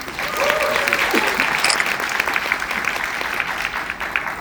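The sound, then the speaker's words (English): Audience applause welcoming two guests onto a stage at an event in Seoul: dense, steady clapping from many hands that holds at an even level throughout, without speech. “두 주인공을 무대 위로 모셔보겠습니다. 여러분, 뜨거운 박수로 환영해 주시기 바랍니다.”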